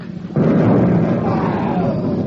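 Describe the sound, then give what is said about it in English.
A depth bomb from a destroyer explodes with a sudden loud, deep roar that bursts in and keeps rumbling steadily to the end. “What's that? The destroyer. Depth bomb.”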